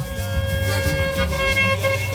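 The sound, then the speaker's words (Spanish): Car horns honking on a city street, a loud sustained blare of overlapping horn tones lasting the whole two seconds without a break. “¡Órale, todo el mundo pitando!”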